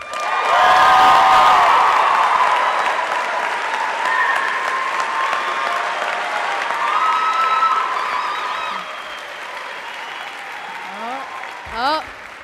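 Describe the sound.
An audience bursts into loud applause for a comedian, with scattered cheers. The clapping is strongest at first, then gradually tapers off, and a few voices come through near the end.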